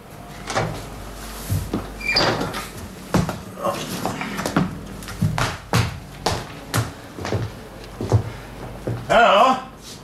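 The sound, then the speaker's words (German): Radio-drama effects of a window being smashed in and a bolt slid open, a long run of knocks, clunks and rattles mixed with people talking, and a brighter crash near the end. “Los, Sergeant. Schlagen Sie das Fenster ein. Schieben Sie den Riegel auf,”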